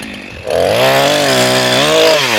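A saw cuts through a tree in a plantation, a loud, steady buzzing drone with a rich harmonic tone that starts abruptly after a brief moment of quieter noise and holds to the end.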